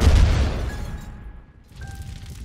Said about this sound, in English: You made him explode.